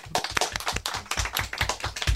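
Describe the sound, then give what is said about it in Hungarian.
Clapping from a game-show studio audience after the winners are announced: a few sharp, distinct claps scattered across about two seconds at moderate level over a low tonal hum. “Őket taps nekik!”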